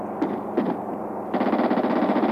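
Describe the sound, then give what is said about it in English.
Gunfire erupts as people flee toward a waiting plane: two separate sharp shots, then a rapid burst of automatic fire rattling steadily through to the end. “Someone's shooting!”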